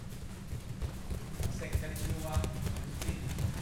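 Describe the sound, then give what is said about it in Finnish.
Many children's feet jog in circles on a padded floor during a karate warm-up at a karate school, a steady patter of dull, soft thuds with faint voices in the background. “Täällä parin tusinan lapsen jalat joggaavat ympyrää pehmustetulla lattialla.”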